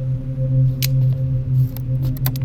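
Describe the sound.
Rope being cut loose: a few short, rasping slicing bursts over a steady, loud low hum.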